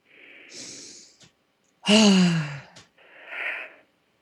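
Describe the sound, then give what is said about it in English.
Deep breathing: three breath sounds with pauses between them, a soft airy breath, a louder voiced sighing exhale, then another softer breath. No talk is heard. “so take a deep breath.”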